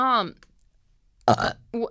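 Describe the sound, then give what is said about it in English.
Two burps in a row from a person during casual chat. The first is a longer, loud belch and the second is a shorter one right after it. “two burps in a row”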